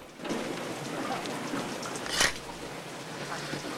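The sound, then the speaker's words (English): Rain falls on the windscreen of a car parked before an outdoor movie screen, a dense, even hiss held throughout, with one brief louder swish near the middle. “The windscreen wipers sweeping back and forth offer vague glimpses of the action on the movie screen through the rain.”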